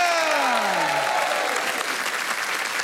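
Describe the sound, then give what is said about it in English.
An audience applauding to welcome guests onto a show: dense, loud, continuous clapping from a crowd that holds steady throughout. “you need to put your hands together again for Ursula Karlsson, Mary Quartz, Em Luciano, and Jason”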